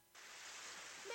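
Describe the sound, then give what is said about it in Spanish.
Steady rain sets in after a brief quiet moment and continues as a soft, even hiss of falling water, fairly faint throughout. “Me voy a oxidar. Miren, allí hay un portal. Salgamos de la lluvia. Me va a dar pulmonía.”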